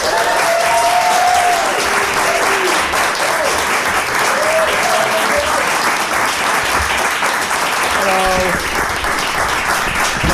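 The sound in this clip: Audience applause welcomes two hosts onto a stage at a live show, with loud, dense clapping from a crowd that holds steady throughout.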